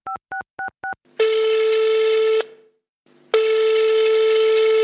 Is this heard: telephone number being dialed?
yes